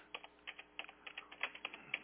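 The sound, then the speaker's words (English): Rapid typing on a computer keyboard: many quick, light key clicks in an uneven stream, with no voices. “I wish I could type faster.”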